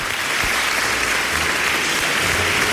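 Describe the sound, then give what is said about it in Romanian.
Audience applause for the people behind a project, heard as dense, steady clapping that fills the whole stretch at an even loudness, with no voices on top. “Încă o dată aplauze celor implicați în acest proiect de inteligență foarte artificială.”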